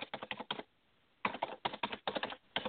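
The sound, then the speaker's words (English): Typing on a computer keyboard: two quick runs of crisp key clicks separated by a brief pause, heard alone. “So what I'm going to do is I'm going to type that in with you.”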